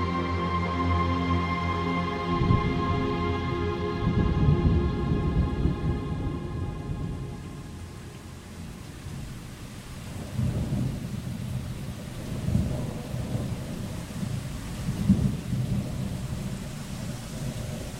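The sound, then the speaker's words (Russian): Cold rain falls steadily, a continuous hiss of drops under deep rolling thunder, with heavier rumbles swelling at intervals across the whole stretch. “С серого неба упали первые капли, потом гуще, больше, и зарядил мелкий холодный дождь.”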